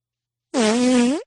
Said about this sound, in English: not really that. More just wet. It's kind of like a V. Not fart. Wet. It's just airy. Air. It's just air real is airy. Right. Yeah. Yeah. Yeah. That's what I'm saying. It's kind of like a V fart. Like a donut fart.